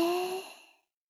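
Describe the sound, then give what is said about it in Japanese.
A breath released after a short hold during a guided breathing exercise: one audible sighing exhale with a light voiced tone, strongest at the start and fading out within about a second, with no talk over it. “はい、吸って。一秒止めて、はい、吐いて。”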